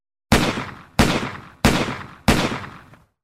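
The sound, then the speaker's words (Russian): Four pistol gunshots ring out on their own. Each is a sharp, loud crack with a short decaying tail, evenly spaced in a steady rhythm. “Прогремели выстрелы.”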